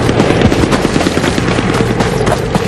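Machine-gun fire at a ferry crossing during a battle: dense, rapid bursts of crackling reports packed tightly together, loud and unbroken for the whole stretch, with no voices heard.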